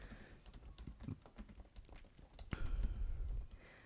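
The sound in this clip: Typing on a computer keyboard: many quick, light key clicks tap out in an irregular rhythm. Toward the end a denser, heavier run of keystrokes comes in, and no one speaks.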